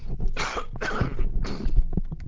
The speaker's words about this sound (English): Excuse me, they're having hopefully a little throat-clearing cough there.